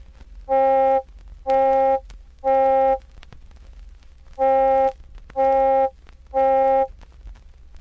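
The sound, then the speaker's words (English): Electronic middle C tone with its overtones emphasized in two mid regions, giving a buzzy, vowel-like color. Six steady, equally loud tones of about half a second each sound alone, three in a row, a short pause, then three more. “But if we emphasize the overtones in the region of 500 and 800 cycles per second, it sounds like this.”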